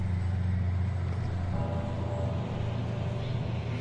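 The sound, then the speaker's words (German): Motor vehicle near a playground gives off a continuous low engine rumble that stays fairly even throughout, with no clear sign of braking or a halt. “Das Fahrzeug wird langsamer und hält an in der Nähe des Spielplatzes von Neukirchen.”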